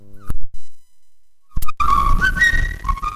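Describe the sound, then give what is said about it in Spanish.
Street whistling of an early tango melody: one short whistled note, a pause, then a wavering, sliding whistled tune over a dense, busy backing that carries on to the end. “En el principio, ¿no fue el tango acaso, sino un errabundo silbo callejero?”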